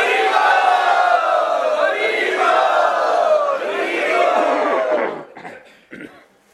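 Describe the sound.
A crowd cheering and shouting in welcome for visiting devotees from Ukraine at a devotee gathering. The dense mass of voices holds for about five seconds, then thins out into a few scattered sounds.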